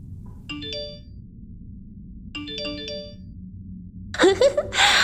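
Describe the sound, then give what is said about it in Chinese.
A phone message notification tone chimes twice, each a short bright cluster of ringing notes, over a low background hum before a voice comes in. “那个女人又给你发消息了呢，让我看看他又给你发了什么”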